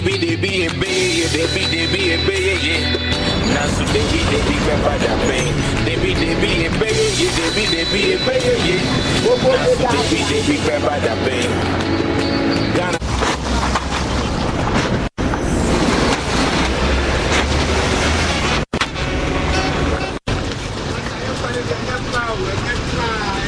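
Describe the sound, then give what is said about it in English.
A vehicle rattling and thumping over potholes on a damaged road toward Odoko, with a continuous low rumble, clatter and a few sharp jolts, and people talking over it. “A sudden sound of pothole symphony. When your vehicle joins the chorus”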